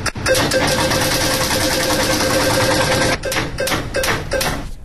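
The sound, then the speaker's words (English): Birthday ball machine spinning during a prize draw, a loud steady whirring roar dense with rattling balls that breaks into choppier, rattling bursts toward the end, with no talk. “We are going to spin the birthday wheel right now. A random month will pop out.”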